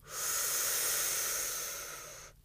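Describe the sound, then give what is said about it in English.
A long inhalation through the mouth during a guided breathing exercise makes a steady, airy hiss that lasts about two seconds, eases slightly and then stops abruptly. “Let's start to inhale through our mouth.”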